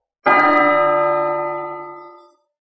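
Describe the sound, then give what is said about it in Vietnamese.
A large golden bell hung in a celestial palace strikes once, a rich, resonant metallic tone that swells instantly and rings on with a long, shimmering decay of about two seconds before fading out. “Trong một tòa thiên khuyết treo một cái chuông lớn màu vàng, tiếng chuông rung động khắp thập phương, vang vọng chấn động cổ thành phía dưới.”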